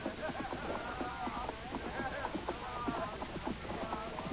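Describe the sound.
Hoofbeats of three horses ridden past near Salem Village in an audio drama, a steady, rhythmic clip-clop of many light, repeated strikes that stays fairly faint and even throughout.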